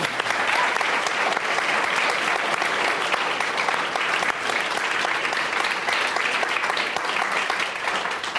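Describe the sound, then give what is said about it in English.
Audience applause fills a live climate discussion event, dense and steady clapping that holds at an even level without a break from start to finish. “Let's give it up for these guys doing something really hard.”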